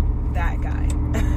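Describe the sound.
Low, steady engine rumble from a truck right beside the speaker, holding an even level throughout, with a voice talking faintly over it.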